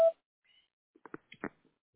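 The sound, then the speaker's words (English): A voicemail recording beep: one short, clear pure-tone beep at the very start, then near silence broken by a few faint, brief sounds. “At the tone, please record your message. When you have finished recording, you may hang up.”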